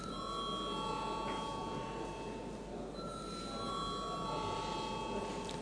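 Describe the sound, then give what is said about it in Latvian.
Bell rung in a parliament chamber to call deputies to a vote: a faint, continuous ringing tone that runs through the whole stretch over a steady murmur of background noise. “Deputāti pieprasa balsojumu. Lūdzu zvanu.”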